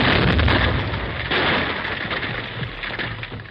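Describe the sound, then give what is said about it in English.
Blasting explosion in a gold mine tunnel, heard as a loud, sustained roaring rumble with crackling debris that slowly tapers off, with no voices. “Each blast sent loose shale sliding into the valley.”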